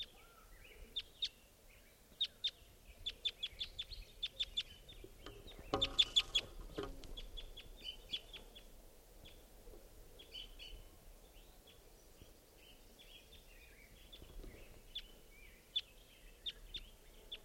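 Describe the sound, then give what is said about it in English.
A wild bird calls as it flies around: many short, high chirps in irregular bursts, quiet overall, with a brief louder noisy burst partway through. “It's flying around. Wild bird.”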